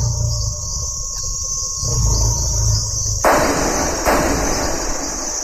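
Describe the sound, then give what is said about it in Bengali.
Two sharp gunshots are fired at a badly wounded lion at night, about a second apart. They cut through a steady, loud chirring of crickets and insects that runs throughout. “আরো দুবার গুলি খেয়ে সেটা শেষ নিঃশ্বাস ত্যাগ করল।”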